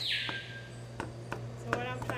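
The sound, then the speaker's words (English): A knife chops food into small pieces for parrots, giving a few sharp, faint knocks at uneven intervals over a steady low hum. “Cut it as small as I can without making it like mushy. Because our general rule is you feed a bird food that's kind of the size of its beak.”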